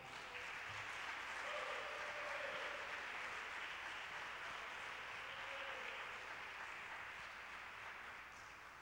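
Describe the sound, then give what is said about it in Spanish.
An audience applauding during a church sermon, fairly faint, dense steady clapping that holds throughout. “Dale un aplauso a Jesús.”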